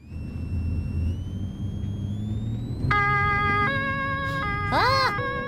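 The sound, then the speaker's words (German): A police car siren wails over a low rumble, first a steady high tone creeping slightly upward, then loud stepped two-tone pitches, ending in a brief swooping sweep near the end. “Ja, du hörst, das ist eine Polizeisirene.”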